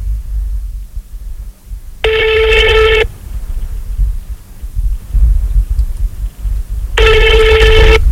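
Telephone ringing on an unanswered call: two ring bursts of about a second each, separated by a long pause, over a steady low rumble.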